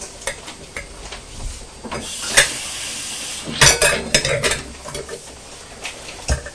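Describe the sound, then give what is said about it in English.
Wiping out a kitchen scale pan makes irregular rubbing and scraping strokes, with a few sharper scuffs and clinks between quieter stretches. No voices are heard. “Just going to wipe the scale pan out because we don't want to put any food in”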